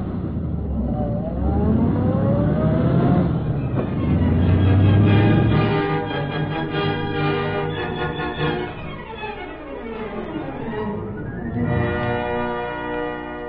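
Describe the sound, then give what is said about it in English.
A taxi cab accelerating away to chase another cab around a corner gives a loud, continuous engine roar with whining tones that rise and fall, ending in a fresh surge. “Follow that cab that's turning the corner. Step on it.”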